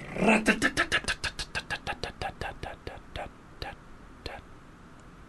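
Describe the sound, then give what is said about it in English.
A prize wheel spun off microphone gives a fairly faint run of ticks that start fast and close together, then slow steadily and thin out into a few last clicks. “There we go. That was beautiful. Really realistic. I really felt like there really was a wheel here.”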